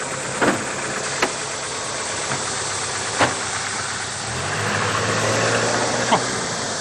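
A car engine runs with a low rumble as the car drives off. A few faint clicks sit over it, and a steady low hum swells midway through.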